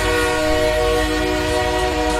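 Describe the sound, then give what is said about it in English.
A train pulling into a railway station: a loud, sustained horn-like tone holds steady over a continuous low rumble for the whole stretch, with no voices. “We're going to say hello to the Groovy Train and bring in this feel-good vibe with our Groovy Train just pulling in to Lime Street Station. Here she is.”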